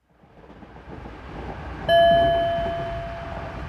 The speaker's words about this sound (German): Sie sitzen im ICE Frankfurt-Paris.